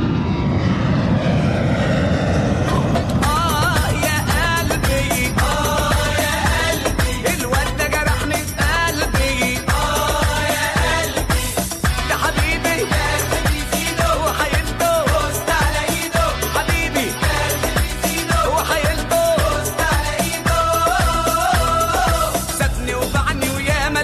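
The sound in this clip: An airplane taking off from Damascus airport gives a loud, steady engine roar that holds strong and continuous throughout with only slight shifts in tone.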